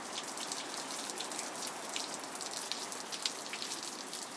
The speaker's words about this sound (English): I always have to report on rain sounds.